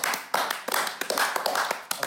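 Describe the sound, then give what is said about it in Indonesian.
Studio audience applause, a short burst of sharp, irregular hand claps of moderate loudness. “uh, kita applause dulu dong applause oke okay.”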